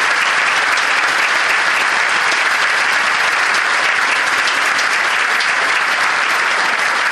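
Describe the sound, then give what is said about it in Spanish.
Audience applause at a gathering: a full, continuous burst of clapping that holds steady at a loud level throughout. “Y les pido un fuerte aplauso para ellos dos también.”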